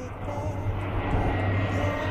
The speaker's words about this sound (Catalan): Oi, com passa l'helicòpter? Oi, com passa? Això més aviat és un reactor, Sí, és un reactor el que era allò